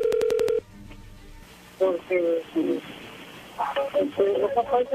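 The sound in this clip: Telephone keypad tones as a number is dialed, a quick electronic beep burst in the first half-second, then a pause and voices talking on the line.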